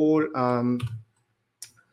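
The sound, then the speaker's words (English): A mouse click on a URL: one short, sharp click that follows a brief stretch of talk, then quiet. “if I click this URL, you will be able to see”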